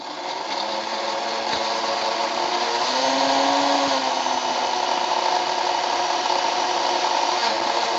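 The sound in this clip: A blender blending jalapeno into sour cream, a steady, continuous motor whir that holds an even loudness throughout, with no talk.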